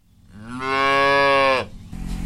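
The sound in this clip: A single long, loud moo from a dairy cow on a small farm in East Bernstadt. The low, richly harmonic call swells, holds steady for about a second, then cuts off, leaving faint background noise.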